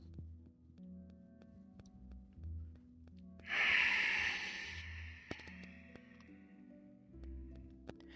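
A slow exhaled breath: one soft, airy hiss lasting about a second and a half, rising above a quiet, low, droning background.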